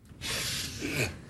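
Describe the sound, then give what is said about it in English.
A person sniffs a book in one sustained, breathy inhale lasting about a second, soft and airy with no other sounds around it. “He picks up a book and sniffs it.”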